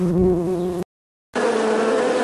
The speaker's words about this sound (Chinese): 盛开的油菜花向空中释放香甜，吸引了蜜蜂的到来。